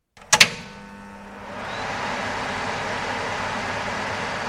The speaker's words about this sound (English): Here's the sound of my desk fan when it's working properly.